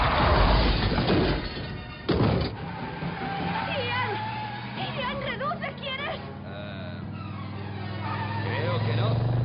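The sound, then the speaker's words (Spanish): A convertible's engine and skidding tyres as it reverses through a gas station while being chased, with a sharp crash near two seconds as another car is overturned; the loud, dense roar continues throughout with shrill, wavering squeals. “Una bola publicitaria rueda junto al descapotable. El descapotable va a marcha atrás. El Rex atraviesa la gasolinera y lo persigue volcando otro coche.”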